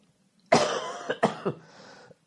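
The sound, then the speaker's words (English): A sick man coughs in a burst of several harsh, rough coughs, loud at first and then fading into weaker hacks, with no talk over them. “I'm going to try to talk through the coughs.”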